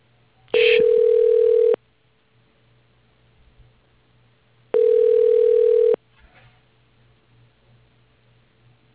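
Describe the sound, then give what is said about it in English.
Telephone ringing tone while a call is transferred: two long, steady, buzzy rings of about a second each, separated by a few seconds of near silence, with another just beginning at the end. “For Sue Whalen, your call is being transferred.”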